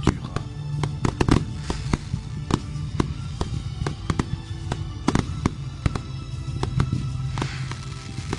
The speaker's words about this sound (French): Et le feu d'artifice du rat